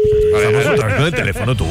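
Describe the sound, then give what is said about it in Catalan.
A steady single-pitch telephone tone after a caller hangs up, heard under a talking voice for under a second before cutting off while the speech carries on. “Ens acaben de penjar, no passa res.”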